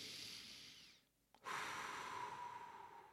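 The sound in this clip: A deep breath in during a guided relaxation exercise: steady breathy airflow, a brief quiet pause, then a long, strong inhalation that carries on to the end.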